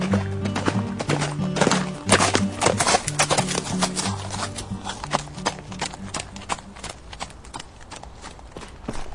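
Horse hooves clop as someone rides a horse across church property, a run of sharp, fairly loud hoof strikes that are densest early and grow quieter toward the end, over a low steady background.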